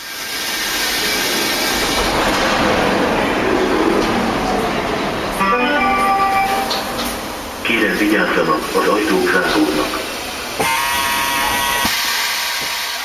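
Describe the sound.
A metro train rumbles with a loud, steady roar of wheels and rails, while motor whines rise in and out through the middle of the ride.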